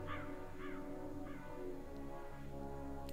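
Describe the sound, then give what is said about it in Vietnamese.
A black crow gives a few harsh, echoing caws, clearest at the start and fading afterward, over a steady droning background at low level. “quạ kêu vang vọng”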